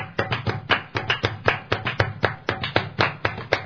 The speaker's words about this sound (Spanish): Y ahora el otro grupo conmigo, tres aplausos, vamos.